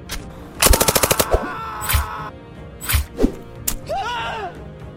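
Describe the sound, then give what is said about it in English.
Gunfire from two pistols emptied during a bunker assault: a rapid burst of about eight sharp cracks, then a few scattered loud bangs and thuds, followed by a brief wavering whistle. “I lifted my arms and fired till my guns were empty.”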